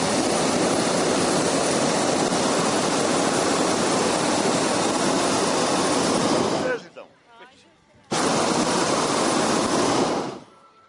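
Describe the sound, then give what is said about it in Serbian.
A hot air balloon's burner roars during takeoff: a long, loud, steady blast, a short pause with a brief voice, then a second roaring blast that cuts off. “ovo što čujete je zvuk balona koji poleće.”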